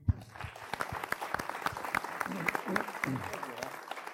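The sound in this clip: Audience applause welcomes a speaker at an evening panel discussion on education in California: dense, steady clapping from many hands, fairly loud and sustained throughout, with many sharp overlapping claps forming a continuous crackling wash.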